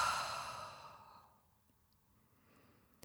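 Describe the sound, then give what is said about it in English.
A slow, deep breath released through the mouth: a soft, breathy exhale that starts fairly loud and fades away over about a second, followed by near silence. “Taking a nice, slow, deep breath in through your nose. And releasing the breath through the mouth.”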